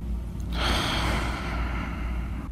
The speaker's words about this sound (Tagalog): Huy, hinga ka naman dyan.